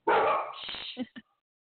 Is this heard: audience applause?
no

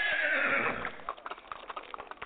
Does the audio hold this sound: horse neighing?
yes

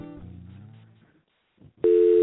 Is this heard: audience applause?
no

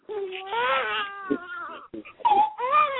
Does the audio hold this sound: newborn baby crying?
yes

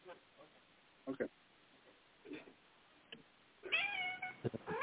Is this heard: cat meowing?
yes

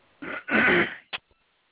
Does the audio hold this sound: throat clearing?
yes

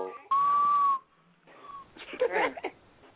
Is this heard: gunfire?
no

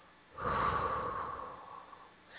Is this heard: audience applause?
no

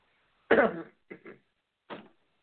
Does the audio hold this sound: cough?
yes

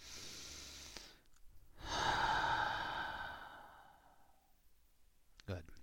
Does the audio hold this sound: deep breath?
yes

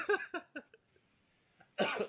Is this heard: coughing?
yes

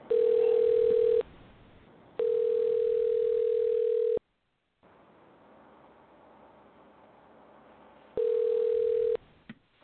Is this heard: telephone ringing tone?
yes

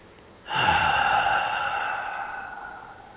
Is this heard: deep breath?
yes

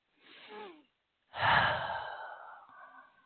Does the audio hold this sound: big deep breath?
yes

